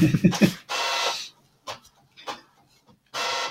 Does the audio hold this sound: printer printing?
yes

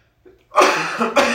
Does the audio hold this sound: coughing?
yes

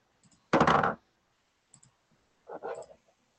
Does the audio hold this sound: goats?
no

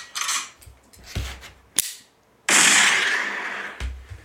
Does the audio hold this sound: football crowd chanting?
no

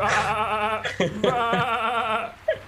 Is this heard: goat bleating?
yes

